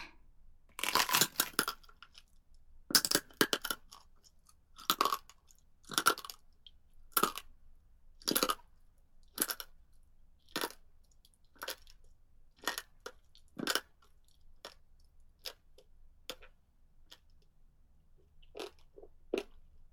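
Chewing and biting food: many crisp, crunchy bites and chomps in an irregular rhythm, fairly quiet, with no talk.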